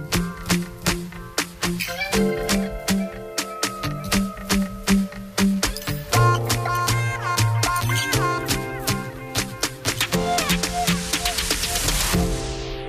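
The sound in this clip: A new pop song by a young artist plays alone, opening with regular punchy percussive beats over a melodic line, growing fuller and denser midway, and ending with a bright rising noise sweep.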